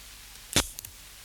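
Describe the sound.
A thrown knife thuds into a target with one sharp, loud impact, followed by two faint quick rattles against a quiet hiss.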